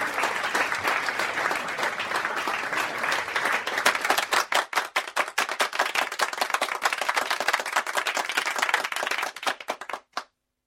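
Audience applause, a dense wash of many hands clapping that thins into sparser, distinct claps before stopping abruptly near the end.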